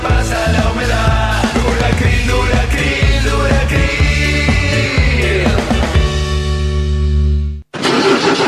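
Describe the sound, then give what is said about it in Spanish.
Diesel engine starting: loud, rhythmic cranking pulses repeat for several seconds, then give way to a steadier running tone before an abrupt cut, with no voices. “¿Arranca o no arranca? Siempre arranca con bujía Gescher para motores diésel.”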